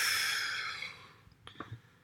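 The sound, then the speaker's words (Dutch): A deep breath during a guided relaxation breathing exercise: a long, airy breath that starts loud and fades over about a second, followed by a few faint soft clicks and small breathy sounds. “En als je wil, adem eventjes diep in of diep uit, welke eerst lekker werkt voor jou en jouw lijf.”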